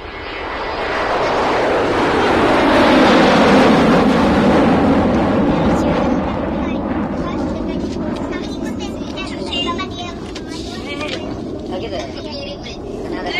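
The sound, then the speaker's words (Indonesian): An airplane roars loudly as it takes off, its engine noise swelling to a powerful peak and then slowly easing into a sustained, broad rumble. “Nah, waktu mau berangkat, suara kapal terbang sangat keras sekali. Bunyinya seperti ini.”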